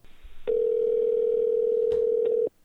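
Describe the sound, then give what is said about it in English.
A telephone dial tone plays as a call is placed to a guest, a steady single-pitch hum lasting about two seconds before cutting off abruptly. “coming up next here, we're about to give a call to uh, Robert Guffey, um, who's the author of this book, Chameleo.”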